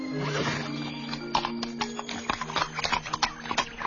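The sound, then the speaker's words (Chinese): A horse pulling a cart clip-clops along in a steady series of hoof strikes that grow sharper and more frequent toward the end, with a horse's whinny near the start. “他指挥着马儿，拉着车向前走。”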